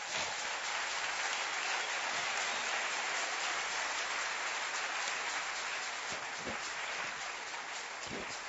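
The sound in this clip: A French-speaking church audience applauds in praise of Jesus, a soft, continuous spread of many hands clapping that holds steady throughout, with a few low thumps near the end.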